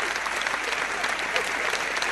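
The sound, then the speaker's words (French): Steady audience applause, dense continuous clapping that holds at an even, fairly loud level for the whole short stretch, with no voices standing out. “Je vais vous demander d'applaudir. Voilà.”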